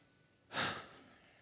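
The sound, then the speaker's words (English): One deep breath, a soft airy rush that swells quickly and then fades away over about a second. It is faint and heard alone. “Take a deep breath or two.”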